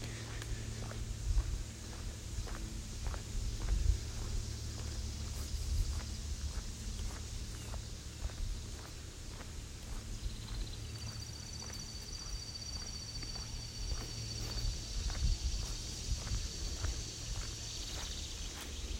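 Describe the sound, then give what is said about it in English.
Locusts chirping outdoors during a walk, a thin, high, sustained insect buzz that grows prominent partway through, layered over a steady, regular tread of footsteps. “The locusts are very boisterous this time of year. You can hear them. They're cackling.”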